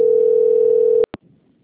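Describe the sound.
A steady single-pitch telephone tone during a call transfer holds loud for about a second, then cuts off abruptly. Two short sharp clicks follow, trailing into faint low line noise.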